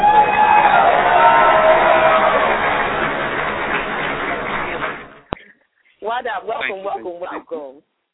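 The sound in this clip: A round of applause and cheering from a crowd rolls on loudly, thins gradually and fades out, followed after a brief pause by a man talking.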